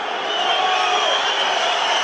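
A rugby stadium crowd at a USAP Perpignan match during an injury stoppage, roaring steadily as it presses for a video review: a dense, continuous wall of noise that never lets up.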